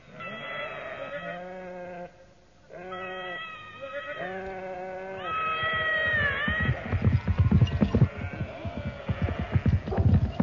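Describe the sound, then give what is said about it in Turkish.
A flock of sheep bleats on a road, with a few long, wavering cries overlapping one another, followed by a louder, busier stretch of rough noise. “Şu koyun sürüsü de önümüze nereden çıktı?”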